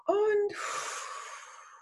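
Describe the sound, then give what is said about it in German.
A deep breath drawn in during a guided relaxation exercise: a brief voiced sound, then a long, airy inhale lasting over a second that slowly fades. “Tief einatmen”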